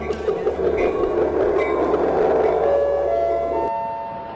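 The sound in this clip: A train sound effect of loud rolling rumble layered with steady chime-like tones. The rumble cuts off abruptly near the end, leaving the ringing tones to fade.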